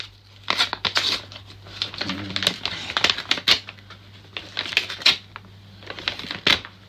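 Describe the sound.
A large paper envelope holding a birthday present is torn open, giving many sharp ripping and crinkling bursts in quick, uneven succession with short pauses.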